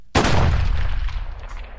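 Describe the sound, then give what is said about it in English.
A single loud gunshot cracks sharply and fades into a heavy, rumbling decay that lingers for over a second. “I could hear the shot. I could smell the powder.”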